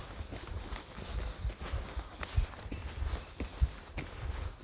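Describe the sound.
Footsteps walk outdoors in very cold weather: many soft, muffled steps at a steady, even pace, fairly faint, with a couple of slightly heavier footfalls standing out.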